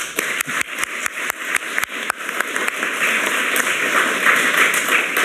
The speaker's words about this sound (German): Das ist schon mal ein Applaus wert, finde